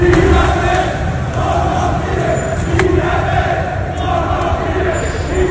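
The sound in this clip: Demonstrators at a street protest on Avenida Virgen de Luján in Seville's Los Remedios neighbourhood shout and chant in a loud, dense, unbroken roar, with repeated rhythmic chant phrases rising out of the crowd noise.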